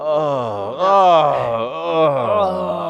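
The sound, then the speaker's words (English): A voice imitates an audience groaning, giving one long, drawn-out moan that wavers up and down in pitch and swells louder in the middle over about three seconds. “I was like, what would cause the audience to groan the most throughout our sets? What's going to make the audience go,”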